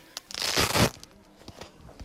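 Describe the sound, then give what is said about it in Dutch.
Rustling, ripping scrape as boxing gloves are pulled on during a physiotherapy boxing exercise session for people with Parkinson's, one loud burst followed by a few faint rustles. “Dus we beginnen even met de handschoenen. Mag je aandoen.”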